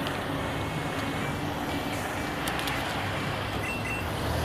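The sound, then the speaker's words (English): Street traffic in London with lorries passing, a steady, dense low rumble of engines that holds evenly at one level throughout, with no voices. “Great, pausing at traffic lights. Sorry for the noise. It is London, there are no cars, it's just lorries.”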